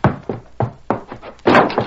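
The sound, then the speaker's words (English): A door being burst open, heard as a run of heavy wooden thuds and knocks. About six hits come in an uneven rhythm, and the last is the loudest and longest. No one speaks. “He raced up to Watson's house, leaped to the ground, and burst through the door.”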